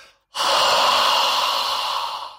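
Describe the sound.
A forceful, deliberate out-breath from a person, pushed proactively through an open mouth and throat. It is a single loud, airy rush that starts abruptly and lasts about two seconds, tapering slightly, heard alone without speech.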